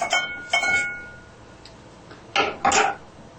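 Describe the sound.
A spoon scraping out the inside of something while leaving its skin unbroken, a few short scraping clinks in two quick pairs separated by a quiet pause.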